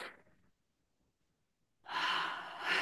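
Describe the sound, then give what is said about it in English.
A long, deep breath drawn in through the nose to smell the air. A soft breath fades out, a silent pause follows, then a steady, rushing inhale lasts about a second. “And then there's the long drunken smell where you basically, you take a deep breath in.”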